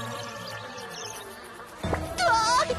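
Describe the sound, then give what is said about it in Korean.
A fly buzzes as it follows a wasp dragging a katydid. A faint, steady insect drone runs throughout, then a louder, higher buzzing swells over the last second. “홍다리 사장님이 배짱이 끌고 들어가고 파리가 따라와서”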